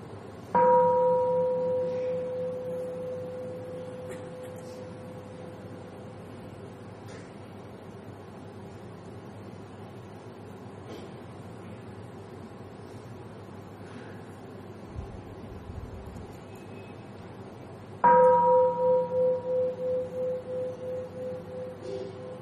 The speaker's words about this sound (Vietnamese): Đó là chúng ta thực tập tiếng chuông chánh niệm.